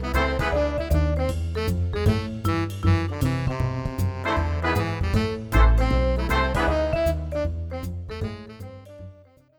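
Upbeat instrumental theme music plays with a strong bass line and rhythmic chords, keeping a busy, steady groove before tapering off at the very end.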